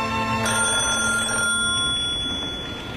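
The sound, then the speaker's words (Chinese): A telephone bell rings in a home study, a steady bright electric ring that begins sharply, holds for about a second, then fades toward the end. No voices are heard. “电话铃响了”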